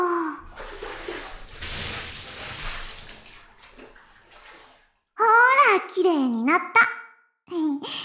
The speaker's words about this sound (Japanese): じゃあ、またお湯でザバーってするね。